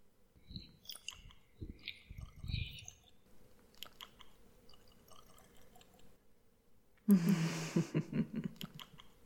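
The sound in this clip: Faint wet chewing and biting, like someone taking a taste: a few soft, moist bursts of mastication, then a louder, sloppy smack near the end.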